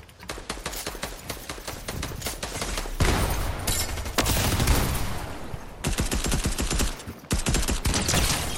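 Video-game gunfire in Fortnite rattles in rapid, continuous bursts of sharp shots, loud and dense, with a few short pauses between volleys. No talking is heard.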